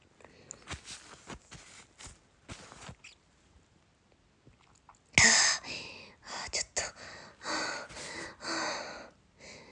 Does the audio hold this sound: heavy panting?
yes